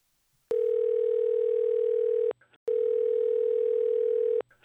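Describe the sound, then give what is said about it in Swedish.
Two long, steady single-pitch telephone ringing tones heard while calling someone, each lasting nearly two seconds and separated by a short silence. “Ska vi testa ringa upp henne direkt då? Ja, men vi gör det.”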